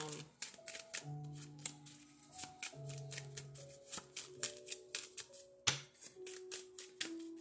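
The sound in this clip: Tarot romance cards handled and shuffled, a long run of quick crisp flicks and soft slaps in an uneven rhythm, with steady sustained tones playing beneath.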